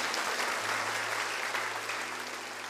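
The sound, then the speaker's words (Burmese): An audience applauds in a Sunday church service, an even, dense clatter of clapping at moderate volume over a low steady hum, fading slightly toward the end. “လက်ခုပ်တီးလက်ဖျားကိုချီးမွမ်းရအောင်အာမင်”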